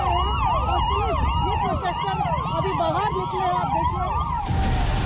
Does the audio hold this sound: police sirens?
yes